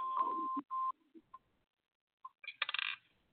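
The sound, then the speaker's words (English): Telephone tones sound while a call is placed: two sustained electronic beeps, a few short blips, then a quick rattling burst of higher clicks near the end, with quiet gaps between. “All right, so we're calling.”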